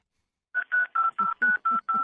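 A telephone being dialled: seven short, evenly spaced touch-tone beeps in quick succession, clear and fairly loud, with no talk over them.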